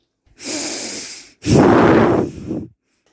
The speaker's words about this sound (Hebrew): תנשום עמוק